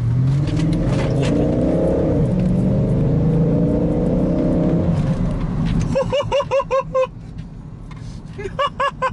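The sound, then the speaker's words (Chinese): A flood-damaged BMW X5 SUV accelerates on the road. Its engine gives a loud, steady revving drone for about six seconds, then the sound turns choppier and lighter. “好，咱们开到路上，加把速试试吧。”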